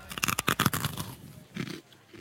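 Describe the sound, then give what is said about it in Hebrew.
A crunchy freeze-dried strawberry is bitten and chewed: a rapid run of sharp, loud crunches gives way to softer, sparser chewing. “אני אוכל טוט עכשיו, כן? שתבין. וואו. שמעת את הקראנץ'? זה תות.”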